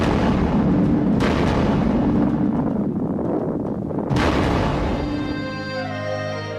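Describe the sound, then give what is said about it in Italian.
A loud explosion effect portraying the atomic bombing of Hiroshima in 1945. A dense, roaring rumble swells with two sharper blasts partway through, then eases as steady sustained tones rise near the end. “Ricordo solo un bagliore improvviso e una terribile esplosione.”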